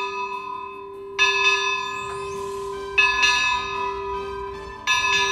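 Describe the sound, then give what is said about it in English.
A small bell is rung by a swing linked to its clapper, striking three times at a slow, even pace. A bright ringing tone rings on between strikes and fades slowly. “There's a little bell and a swing. And the swing is connected to the clapper of the bell, so as you swing back and forth, the bell rings.”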